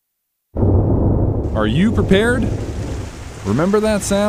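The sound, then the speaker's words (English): Heavy winter rainstorm with thunder, the kind that sends rain gutters overflowing: a constant, dense roar of pouring rain with low rumbles, while a voice speaks over it. “That's the sound of your rain gutters last winter.”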